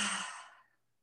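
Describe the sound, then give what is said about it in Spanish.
A single deep, breathy exhale during a guided breathing meditation starts fairly strong and softly fades to silence within under a second. “Inhala profundo. Y exhala.”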